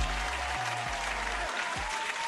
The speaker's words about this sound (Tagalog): Deserve na deserve nyo isang masigabang palakpakan.